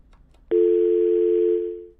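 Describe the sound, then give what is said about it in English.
A telephone dial tone while placing an outgoing call: a click, then a steady, loud, low hum lasting about a second before it fades away. “Is she calling or are you dialing out? No, I'm calling her.”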